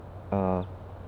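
A single short toot from a female bird at a foraging spot, a buzzy, harmonic-rich call lasting about a third of a second, standing alone against faint background hiss.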